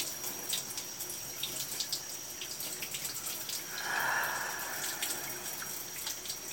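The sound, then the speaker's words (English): Water runs in a shower while towels are lathered and bodies washed, a quiet, steady hiss with scattered drips and splashes and a brief, fuller gush midway. “Lathering our towels and washing one another's body.”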